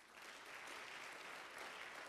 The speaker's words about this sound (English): Church, I believe we should clap our hands to the Lord Jesus Christ.